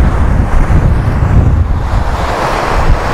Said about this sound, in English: There's a waterfall. Okay. How do we get down there? Ooh. Two waterfalls.